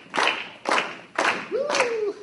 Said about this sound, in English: We usually clap while they're coming down.